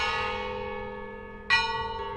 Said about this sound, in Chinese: 所有教堂尖塔上的钟都敲出做礼拜的钟声